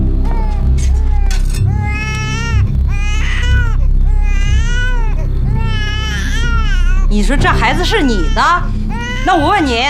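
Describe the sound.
An infant cries loudly in a run-down temple, with repeated wavering wails in bursts and a higher, more frantic stretch near the end, while adults talk around it.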